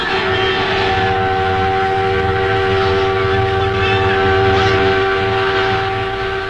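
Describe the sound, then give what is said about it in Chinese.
A freight train heading south toward Nanjing runs steadily, a loud continuous rumbling drone with a sustained tonal hum and no clear breaks. “火车是开南京的，工人弟兄们欢迎我们上车。”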